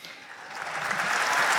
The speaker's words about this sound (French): Applaudissements évidemment de la foule.